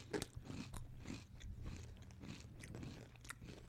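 Crunching of Tangy Ketchup & Hot Mustard Doritos chips, with many crisp bites and chewing crunches in an irregular, steady stream. The crunches are faint and there is no talk.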